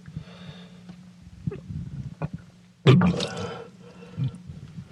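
Someone vomits into a sink after eating too much soup. Quiet strained breaths and small retching noises build to one sudden loud gush of liquid, followed by wet gurgling and a few weaker heaves.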